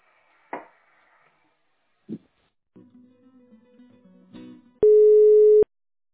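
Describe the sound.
Telephone line tones during a call transfer: a few sharp clicks and a low buzzing hum, then one loud, steady electronic tone that lasts under a second.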